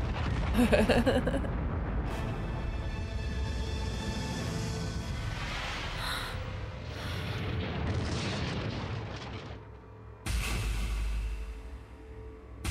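An explosion in an action film roars as a long, loud, rumbling blast that churns on for many seconds, dips briefly, then breaks into a fresh sharp burst near the end.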